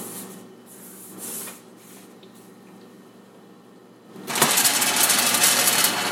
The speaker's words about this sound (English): That noise you hear is the motor as it moves that arm back and forth, mixing